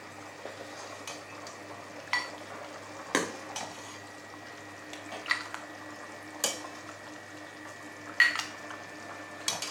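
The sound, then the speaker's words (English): Food being served into a bowl in a kitchen: faint scraping and soft, irregular clinks of a utensil against the dish over a low, steady background hum. “We serve it in one bowl inside, like this.”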